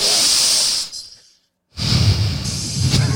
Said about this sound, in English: let's all take a deep breath through the nose right now on three.